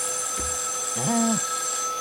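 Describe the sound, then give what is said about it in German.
A telephone rings with a single short electronic tone lasting under half a second. A brief low thump comes before it, and a steady high-pitched whine runs underneath. “Dein Telefon”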